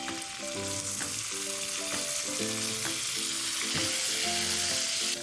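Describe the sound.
Loud, steady sizzling as bamboo shoots fry in a wok for a stir-fry of bamboo shoots with cured pork, carrying on without a break over a melody that plays beneath it.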